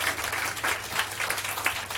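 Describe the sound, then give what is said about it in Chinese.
Audience applause at the close of a cultural salon talk on animal ethics: a steady, dense patter of many hands clapping at an even level for the whole moment. “我们再次给掌声给钱老师，好，非常感谢。”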